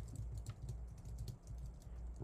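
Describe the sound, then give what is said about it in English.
Faint typing on a computer keyboard: many quick, irregular key clicks follow one another over about two seconds. “What do we need to type in? Okay, Circuit BMX.”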